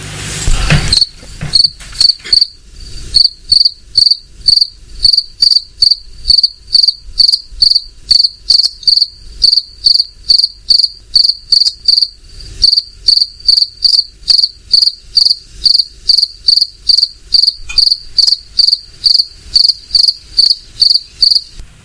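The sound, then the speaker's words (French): A cricket chirps in hot summer weather: many loud, evenly spaced high-pitched chirps repeat in a steady rhythm throughout, with no other sounds. “Évidemment, il s'agit du grillon qu'on peut entendre de jour comme de nuit en ce moment par ses fortes chaleurs.”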